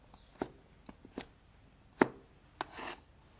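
A knife chops red chilli into small pieces for blending. A few sharp, irregular cutting knocks land on a board at uneven intervals, fairly faint and with no talk.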